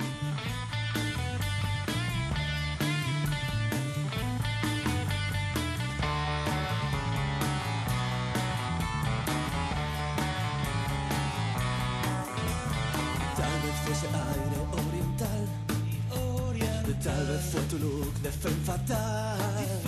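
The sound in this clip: Band music plays loud and dense throughout, with a steady low bass line under bright, crowded upper layers and no break in the sound.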